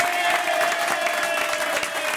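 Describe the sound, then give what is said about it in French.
Dense audience applause greets a female singer, a loud, steady wash of many hands clapping that holds evenly for the whole stretch without breaks. “Applaudissements pour Jeanne Masse.”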